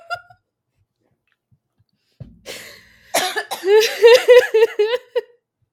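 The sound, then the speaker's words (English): Harsh, rapid coughing from someone who held in a lungful of smoke until it burned the throat. A short breath comes first, then a loud run of raspy, partly voiced coughs. “I held that too long and it burned my throat.”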